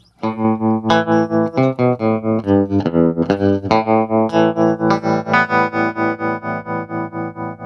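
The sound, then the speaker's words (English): Electric guitar played through a Fender-style amplifier with tremolo. Loud sustained chords and notes pulse in a steady, regular throb, with a gritty edge. “that's a very nice tremolo on there”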